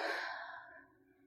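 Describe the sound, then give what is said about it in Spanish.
A single forceful, breathy exhale like a deep sigh, taken during a guided relaxation meditation, strong at first and then trailing off softly. “Inhala y saca el aire con fuerza.”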